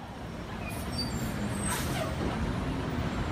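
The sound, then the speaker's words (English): Street-corner traffic at Wall and Broad Street in New York: a steady low rumble of buses and cars, with hissing air brakes breaking through. “Here we are on the corner of Wall and Broad Street, one of the most like famous corners in America, right?”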